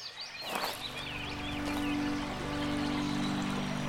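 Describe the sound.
Clear stream water flowing where two streams meet in a deep forest valley, a steady broad rushing wash. Brief bird chirps sound above it near the start.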